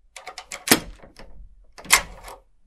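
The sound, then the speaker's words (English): A key turns twice in a door lock, giving two sharp metallic clunks about a second apart, each followed by a short rattle, with lighter clicks before the first. “Filbert left the room, turning the key twice in the lock.”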